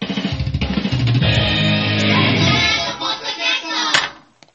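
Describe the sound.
A short hard-rock style jingle, the last of six homemade jingles, loud and dense, opening with a quick run of rhythmic pulses, then sustained distorted-sounding chords before cutting off abruptly near the end.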